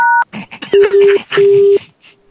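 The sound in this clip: A short two-tone telephone keypad beep from pressing the hash key at the very start, followed by talk and steady, lower electronic tones over the phone line.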